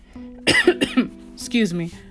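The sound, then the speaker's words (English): A person coughs, attributed to allergies and a lingering cold: a few harsh, rough bursts with voiced tones between them, fairly loud and alone. “I know you're wondering why I keep coughing.”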